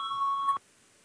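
A parliament voting bell rings before a vote as a single steady electronic beep, a clean tone held for about half a second and then cut off abruptly, leaving near silence.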